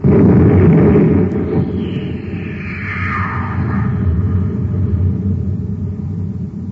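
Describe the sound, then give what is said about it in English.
A cosmic torpedo gun firing aboard a spaceship, launching a torpedo loaded with crystals: a loud, sustained roaring blast with a sweeping whoosh that falls in pitch as the rumble carries on. “Fire the torpedo.”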